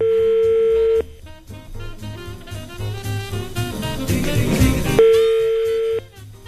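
A telephone being redialed: a steady, mid-pitched dial tone sounds, breaks off into a stretch of music and busy mixed sound, then the steady tone returns before cutting off.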